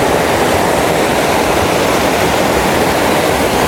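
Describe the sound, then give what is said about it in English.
Fast-flowing water of a stream, a loud, unbroken roar of rushing water that stays steady throughout with no other sounds. “Yeah, I do not want to go in this water. If I go in this water, I am probably not coming back out. It's very fast flowing.”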